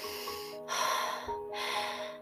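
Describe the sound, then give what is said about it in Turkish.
A dragon snorts and breathes deeply through its nose: a few long, breathy rushes of air, each separated by a short pause, over a steady tonal background. “derin nefesler alıp veriyormuş. Burnundan soluyormuş.”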